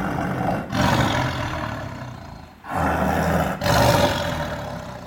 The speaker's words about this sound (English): that's a Siberian tiger.